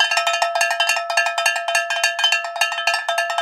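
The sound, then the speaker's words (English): Cowbells clank in a quick, steady rhythm on a hiking trail. Many bright metallic strikes overlap, each with a ringing tone that decays before the next strike. “So here are the cowbells of inspiration.”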